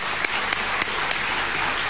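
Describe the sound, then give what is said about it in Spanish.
Audience applause at a book fair event, an even, continuous wash of clapping at a steady level, with a few slightly sharper claps standing out. “¿Lo pueden aplaudir?”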